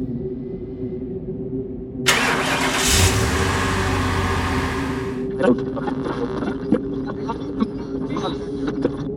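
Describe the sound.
A car engine starting and driving: a low, steady engine rumble with a loud rushing surge lasting about three seconds, then settling into a running drone marked by a few light knocks.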